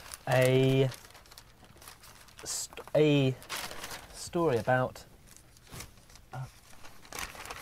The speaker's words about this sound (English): He's rapidly rustling. he's leafing through this paper like a man possessed.